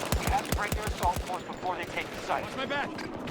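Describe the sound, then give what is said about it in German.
Gunfire from a marksman rifle in a video game, a rapid string of sharp, punchy shots packed into the first second, followed by quieter game sounds while a man talks over them. “Kein Auto, Feuer. Ist ja auch ein Marksman-Rifle. Sieht aber eher aus wie eine SMG.”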